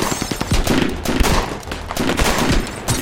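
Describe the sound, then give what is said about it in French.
Heavy gunfire from six men shooting together in an ambush: dense, loud, overlapping volleys of rapid shots filling the few seconds, with only slight dips between bursts. “Ils vident leur chargeur, rechargent et tirent à nouveau.”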